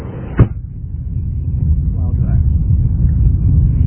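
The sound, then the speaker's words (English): An Oldsmobile car drives off. A brief sharp sound comes first, then a low engine rumble builds and holds steady and loud to the end. “In the Fleckenstein Oldsmobile, with Mr. George at the wheel, we took off for the most likely site of both those duels.”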